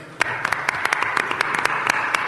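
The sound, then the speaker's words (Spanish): Applause for a guest at a Málaga fair event, heard as many sharp, distinct hand claps in a quick, uneven stream over a soft bed of crowd noise, fairly loud and steady from start to finish. “Un aplauso para Borja, claro.”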